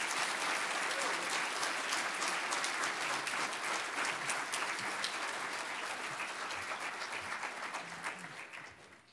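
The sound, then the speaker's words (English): An audience claps to welcome a group of guests from Teen Challenge: dense, steady applause that stays loud for most of its length and tapers off slightly at the end. “Why don't you welcome the Teen Challenge guys as they come this morning? Put your hands together.”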